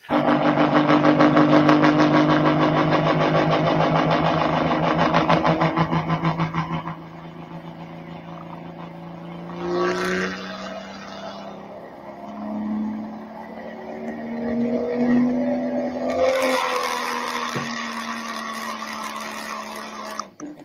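An engine revving: a loud, buzzing drone at first, then a quieter idle, with the motor's pitch climbing through a couple of swelling revs toward the end.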